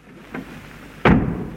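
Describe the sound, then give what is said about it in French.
A door is pulled shut with one solid, heavy thud after a softer knock-like tap, in a short, otherwise quiet moment. “Courage, Polichinelle. Entrons et fermons la porte derrière nous.”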